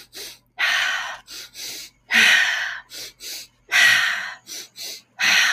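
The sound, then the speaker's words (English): Fast, forceful breaths in quick succession during a breathing exercise: many sharp, airy bursts, with longer strong breaths alternating with pairs of short quick ones in a steady rhythm, loud and without talk. “Moving air three times. Fast in succession.”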